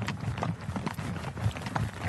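Hoofbeats of a horse trotting under a rider during a riding outing, a steady, even rhythm of muffled beats over constant noise.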